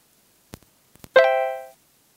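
A phone ringtone plays after its ringtone volume is set to level six: a few faint taps, then one short bright chime that holds about half a second and fades out.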